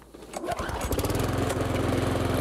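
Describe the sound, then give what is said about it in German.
A loud lawn mower engine, the noisiest of three models being compared, runs in a garden, catching quickly and settling into a steady, rattling drone that stays loud throughout. “Beim Nachbarn, wenn du Rasen mähst, ist es laut. Und ich glaube mal, der ist von unseren drei Modellen der geräuschintensivste.”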